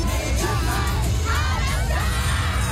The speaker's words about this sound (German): Und wenn ein The Weeknd den Fans die Hand gibt, dann klingt das in etwa so.